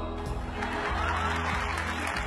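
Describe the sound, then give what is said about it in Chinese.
Audience cheering and applause fill a crowded contest venue as the final contestant appears, a dense, continuous wash of clapping and crowd noise at steady loudness with no distinct voices standing out. “东妈还没有来得及起立，满场响起的欢呼和掌声就让她傻了眼。”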